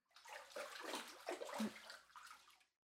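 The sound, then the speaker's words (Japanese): Water splashes and sloshes as someone rinses their body off in a bath, a steady run of wet pouring and splattering noise with a few louder surges before it stops. “体流して上がりましょう。”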